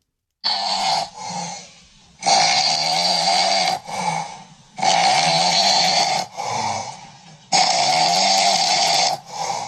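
A man snores asleep in a bedroom with loud, rasping snores in a slow, regular rhythm. Each long, harsh snore is followed by a shorter, softer breath, with brief silent gaps between them.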